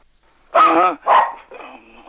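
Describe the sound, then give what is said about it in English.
A dog barks twice in quick succession, loud and sharp, followed by a softer, drawn-out sound. “Whoa, tell that dog to shut the fuck up.”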